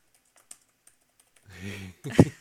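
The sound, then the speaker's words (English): A few faint, sparse key taps on a computer keyboard are heard before a person starts talking. “Let me type this.”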